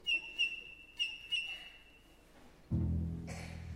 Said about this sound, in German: Lerche von rechts, hinten der Fink. Mittendrin ich.